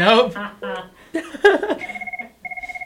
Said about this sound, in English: A caller. Someone's calling. Wait, we have two callers.